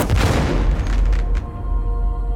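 A single gunshot fired by city defenders during a siege lands as a loud, deep boom that decays into a long rumbling tail.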